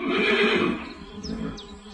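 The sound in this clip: A horse neighs with a loud, shaky whinny that trails off and fades, followed by a few faint, high squeaky chirps over a low background rumble.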